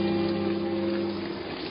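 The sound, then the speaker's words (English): Rain falls on an October evening, the first of the season, as a steady, soft hiss. A faint low hum lies under the even wash of sound. “On the evening of October 4th came the first rain of the season.”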